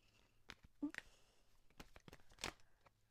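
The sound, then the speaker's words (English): Tarot cards are pulled from a deck, making a few short bursts of soft, papery shuffling and sliding. The card sounds are very faint and come between quiet speech. “So I'm pulling some clarifier cards now.”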